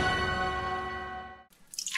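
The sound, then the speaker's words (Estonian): A dripping kitchen faucet sounds one resonant, ringing drip tone that slowly fades over about a second and a half, followed by a short burst of brighter, splashy noise. “Ma tilgun! Kurdab köögikraan. Ma lausa nirisen.”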